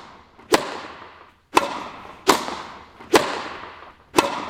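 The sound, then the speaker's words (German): Tennis racket strikes a ball in five sharp, loud pops at uneven intervals, each crack trailing off in a short decaying ring, with no voices. “Ja, ich tue es zwar nicht, aber es ist Tennis spielen. Genau, Tennis spielen.”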